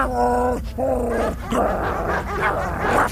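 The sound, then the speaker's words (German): Dog barking in an audio drama scene: a few long, tonal barks, then a rougher, noisier stretch of yips and growly sounds at steady loudness. “Und dann belle ich.”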